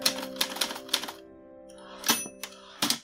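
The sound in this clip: A typewriter being loaded with paper and typed on: sharp mechanical clacks come in two short bursts separated by a quieter pause, over a faint steady hum.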